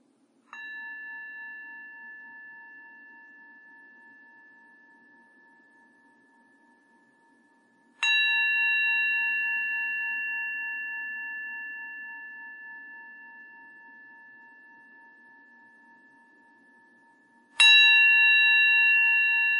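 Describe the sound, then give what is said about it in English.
A meditation bell is struck three times during a guided mindfulness session. Each strike gives a clear, bright ringing tone that fades slowly over several seconds before the next one, against near silence. “we'll listen to the sound of the bell.”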